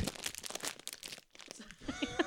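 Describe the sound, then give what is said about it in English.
Crinkling and rustling of a salad with croutons being shaken inside its container, coming in a few bursts of crisp, papery rattles. “My salad's in the way. I need to shake it.”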